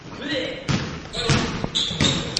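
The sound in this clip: Basketball bounces during a fast shooting game where boys sink one basket after another. A few dull thumps land at an uneven pace amid background voices and court noise.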